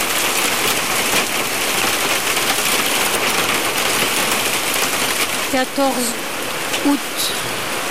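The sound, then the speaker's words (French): Dense, steady hail pouring down during a sudden summer thunderstorm, a loud continuous hiss of many tiny impacts. A faint voice briefly surfaces near the end. “et soudain, la grêle.”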